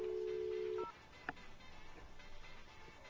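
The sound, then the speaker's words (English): A telephone is dialed: a faint, steady low tone cuts off abruptly, then comes a short higher beep and a single sharp click. Quiet line noise continues afterward, with no voices. “Luckily, we can live dial her because she's 15.”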